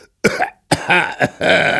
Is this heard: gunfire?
no